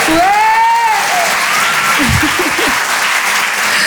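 Audience applause from a live crowd after a performer asks for noise for a birthday: loud, dense clapping that runs steadily for about four seconds, with faint vocal whoops mixed in near the start.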